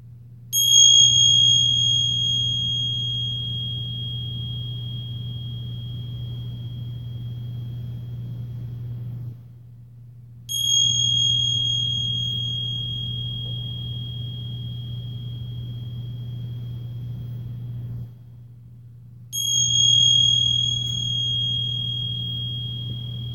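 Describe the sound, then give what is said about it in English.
Meditation bell struck three times at roughly even intervals. Each strike is a bright, high ring that fades slowly over a steady low hum. “and then receiving the sounds of the bell.”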